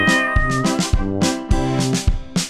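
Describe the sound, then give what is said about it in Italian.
A cat meows repeatedly, several loud, high, whining calls in quick succession, over a steady tonal backing. “arriva il gatto, arriva il gatto, arriva il gatto, arriva il gatto,”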